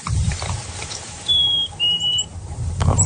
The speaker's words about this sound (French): l'étude a mesuré environ 150 mésanges à tête noire mâle qui produisaient leur chant de séduction. Puis ça, c'est un chant que vous entendez souvent au Québec. Alors, c'est une sorte de titu. On va l'écouter pour que vous l'ayez en tête.